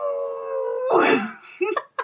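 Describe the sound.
A person vocally imitating a dog, starting with a long, wavering, howl-like tone that breaks into a rougher cry, then a couple of short, sharp yelping barks near the end.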